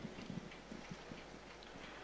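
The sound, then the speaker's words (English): Running footsteps of a man outside, heard as quick rhythmic thuds, fairly faint against a steady low background, clearest in the first half and growing less distinct later. “You can hear the fella running down outside, you know?”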